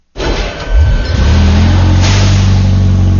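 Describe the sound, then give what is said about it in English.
An armored war wagon's engine bursts into a deep, loud roar. It revs up in pitch over the first second as the vehicle gets underway, then holds a steady, heavy drone. “Once the wag got underway, the reason for the shock-mounted jump seats and cross-chest safety harnesses became painfully apparent. As the vehicle picked up speed, its yawing, pitching motion increased.”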